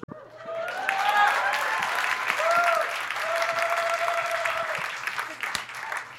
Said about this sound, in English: I'll hold for applause.